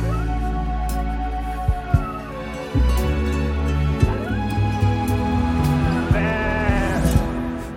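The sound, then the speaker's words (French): Sheep bleating in a few long, wavering, nasal calls over a steady low hum, each bleat rising and trembling, loud and without talk. “Je voulais finir par ce bêlement de mouton.”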